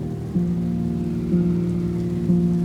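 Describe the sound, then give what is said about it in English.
Steady heavy rain hisses through a roaring storm, a dense, even wash of noise over a low sustained musical drone that shifts pitch a few times, with no voices. “in the middle of this roaring storm. It may be cold out there,”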